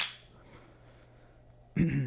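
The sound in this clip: Beer glasses clink together in a toast: a bright, ringing clink fades away at the start, then after a quiet pause a fuller burst of clatter arrives near the end.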